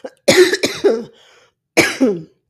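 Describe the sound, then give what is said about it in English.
Harsh coughs and throat clearing from phlegm in the throat: a quick cluster of three rough bursts, then a short pause and another pair, loud and with no talk around them. “I'm not getting choked up, just had a little phlegm on my throat.”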